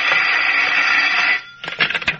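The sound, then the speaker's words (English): A telephone bell rings in one loud, continuous burst of just over a second, then cuts off, leaving a few brief, softer sounds. “and then the phone rang”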